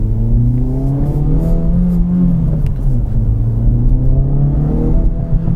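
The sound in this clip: A 2024 Acura Integra Type S accelerates hard in Sport Plus mode, its engine a loud, steady roar with a pitch that climbs, dips briefly, then holds under continuous high load.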